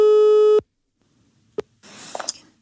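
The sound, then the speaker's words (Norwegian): An outgoing phone call's ringback tone: one steady, clear beep cuts off abruptly. A sharp click follows as the line connects, then a short burst of line noise, with no clear speech. “Skal vi ringe henne”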